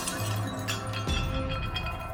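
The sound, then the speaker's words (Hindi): Window glass breaking and shattering, brittle clinking and tinkling fragments over a dense, steady background, with one sharper crack near the middle. “खिड़की का कांच टूट गया और उसके टुकड़े राजेश के चेहरे पर धस गए।”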